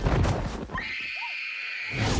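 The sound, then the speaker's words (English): A pony's neigh: one shrill, drawn-out whinny lasting about a second, wedged between bursts of loud, noisy sound. “A pony!”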